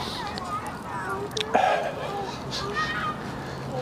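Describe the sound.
Children playing in a crowded, muddy park on a mild winter day produce a steady wash of voices and chatter, with a brief louder burst of activity near the middle.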